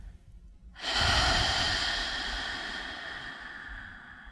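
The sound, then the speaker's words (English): One deep, slow breath is drawn during a guided breathing exercise. A soft breathy hiss swells in after a near-silent start and then tapers gradually over several seconds, with no speech. “Take a deep and slow breath.”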